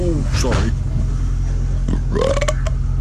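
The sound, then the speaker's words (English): A belch on a bus, heard among voices and people talking, over the steady low hum of the bus engine. “Yes, I know I have, but I haven't been belching publicly.”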